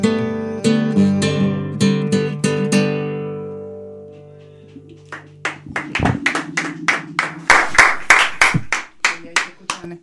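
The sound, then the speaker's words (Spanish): Clapping from a small audience follows the fading final chords of a song. The individual claps are distinct and irregular and grow denser toward the end. “Los aplausos.”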